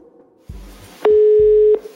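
Ringback tone of an outgoing phone call: one steady, mid-pitched tone lasts under a second and stands out clearly, with faint low thumps around it.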